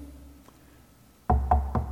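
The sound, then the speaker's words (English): Four firm knocks land on a door in quick, fairly even succession after a quiet stretch with a faint low hum. “knocking on the door.”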